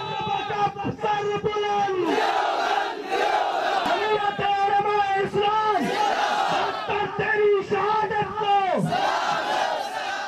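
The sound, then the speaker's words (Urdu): Crowd of Jamiat Ulema-e-Islam (F) party workers chanting slogans in Islamabad, a protest tribute after the killing of a party leader. Many voices chant loudly and continuously in rising and falling, rhythmic phrases. “اسلام آباد میں جے you I F کے کارکنوں نے نعرے بلند کر کے doctor Soomro کو خراج عقیدت پیش کیا۔”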